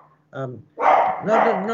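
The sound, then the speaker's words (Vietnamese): A house dog barks at visitors: a short yip followed by louder, harsher barking with whiny, voice-like tones, fairly loud and close together. “Xin lỗi nhà có con chó nó sủa khi có khách.”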